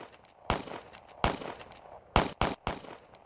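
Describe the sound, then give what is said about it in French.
A sheriff fires five sharp gunshots from a handgun at fleeing children, spaced apart at first, then three in quick succession near the end, each a crisp crack over quiet background. “Il sort son arme à feu et tire en direction des enfants.”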